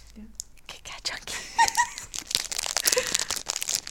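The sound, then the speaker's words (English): Crinkling of a cookie dough Kit Kat Chunky wrapper being opened: many crisp, crackly rustles run throughout, under soft whispered talk. “Do some crinkling noises. Ooh. Are y'all open it?”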